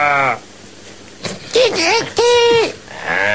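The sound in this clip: A person imitates a sheep bleating with two wavering, nasal bleats in close succession. Brief talk comes before and after them.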